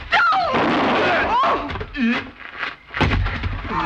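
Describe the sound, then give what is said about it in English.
A sharp handgun shot cracks out amid raised, distressed voices in a dramatised struggle. “She shot me. She killed me.”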